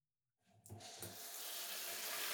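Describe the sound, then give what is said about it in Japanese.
Water from a tap rinses cut hair off a head. It starts abruptly, with a few splashing bursts, then settles into a steady, bright hiss that grows slightly louder toward the end. “まずはさっとカットで残った髪の毛を洗い流しつつ、”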